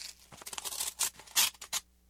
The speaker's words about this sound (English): Inside the manila envelope, you'll find a smaller envelope. I'd like you to open that.